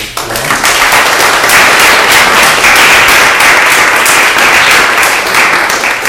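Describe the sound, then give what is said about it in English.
Audience applause at the close of a talk at an art space: a dense, steady wash of many hands clapping that stays loud and even throughout, with no pauses. “So, first of all, a round of applause for”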